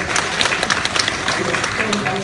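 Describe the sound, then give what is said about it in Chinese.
Audience applause at a comedy crosstalk show, a dense, steady patter of many hands clapping throughout, with voices carrying over the noise. “你听着，你爹给你鼓掌。”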